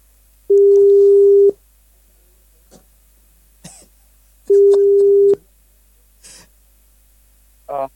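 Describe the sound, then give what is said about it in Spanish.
Telephone ringback tone while a call connects: two steady, mid-pitched tones of about one second each, a few seconds apart, with a few short clicks and breathy noises in the gaps. “Ahí estamos llamando a los chiquillos.”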